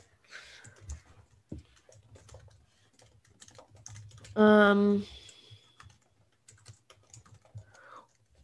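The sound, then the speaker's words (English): Typing on a computer keyboard comes in irregular bursts of light clicks and taps. A brief, loud tonal sound cuts in midway before the keystrokes carry on. “Okay, hold on, let me type this out.”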